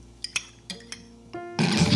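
A spoon clinks lightly against a cup as tea is stirred: a few separate bright taps, then a denser, louder wash of noise at the end.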